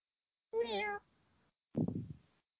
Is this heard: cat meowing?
yes

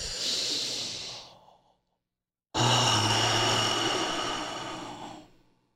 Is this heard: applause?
no

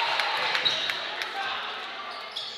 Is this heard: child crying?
no

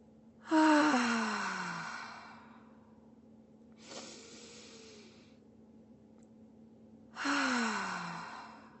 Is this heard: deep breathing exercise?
yes

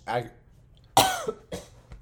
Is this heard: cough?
yes

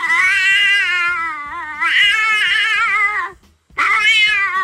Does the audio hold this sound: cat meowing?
yes

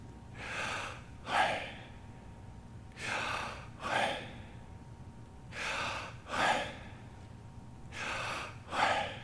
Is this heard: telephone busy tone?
no

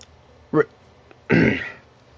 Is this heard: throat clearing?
yes

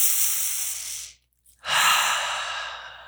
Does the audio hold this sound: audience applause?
no

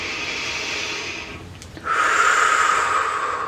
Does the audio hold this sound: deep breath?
yes

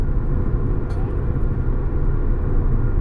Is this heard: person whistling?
no

